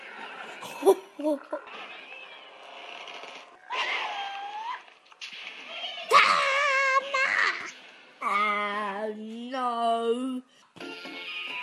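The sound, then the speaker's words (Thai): A child happily plays games on a tablet, with bursts of giggling, squeals and babbling chatter broken by short pauses, and longer sung-out, tonal vocal sounds toward the end. “นั่นก็เป็นเสียงของเด็กที่กำลังเล่นเกมส์บนเครื่องแท็บเล็ตอย่างสนุกสนานนะคะ”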